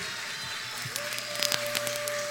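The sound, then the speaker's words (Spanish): An audience applauds at a music performance. Scattered claps grow denser partway through, and a steady tone sounds underneath. “Fuertes de aplauso, por favor.”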